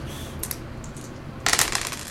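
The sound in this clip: Dice roll on a table during a tabletop role-playing game. A few light clicks come early, then a denser burst of rattling clatter follows about two-thirds of the way through.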